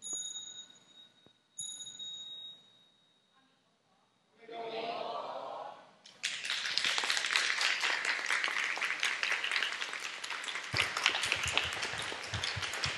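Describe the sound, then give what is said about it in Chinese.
Audience applause at a school opening ceremony held at Da'an Temple. After a quiet start with faint ringing tones and a short murmur, clapping breaks out and holds loud and steady for several seconds. “谢谢掌声，大家请坐。”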